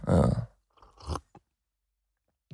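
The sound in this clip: Wet slurping of a poor-tasting coffee, heard as a few loud mouth bursts separated by short silences, with one last slurp at the end.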